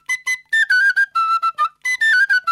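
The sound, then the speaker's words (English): An Irish tin whistle plays a lively melody of short, bright, clear notes in quick succession, with brief gaps between phrases and no voices. “Next, we have the tin whistle. The tin whistle sounds like this.”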